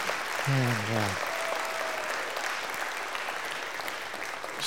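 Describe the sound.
A church audience applauds to welcome new staff members, with steady, even clapping from many hands throughout and a brief voice rising above it near the start.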